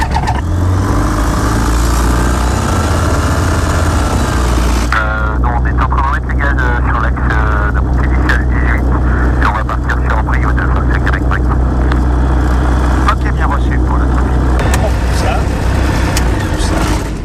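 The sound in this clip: A small airplane engine runs loudly before a flying lesson, a dense, continuous drone with a low hum that shifts character partway through and holds steady to the end.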